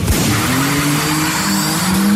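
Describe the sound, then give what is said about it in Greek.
A rally car's engine races loudly while its tyres skid, a continuous roar with a sustained whine that climbs slightly in pitch and holds steady throughout. “Να πάρουμε μια γεύση τι ακριβώς έγινε χθες με το ράλι.”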